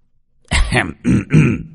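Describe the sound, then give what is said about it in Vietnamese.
A light cough, a brief throat-clearing rasp in three short voiced bursts, fairly loud and heard alone with no talk. “Ho nhẹ một tiếng”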